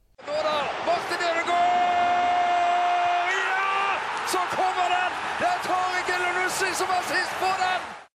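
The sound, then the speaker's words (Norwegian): A short radio jingle plays during the break in a football match. Sustained, tuneful tones lead into punchy percussive hits, and the music stays loud and continuous throughout. “Her kommer en liten jingle, mine damer og herrer.”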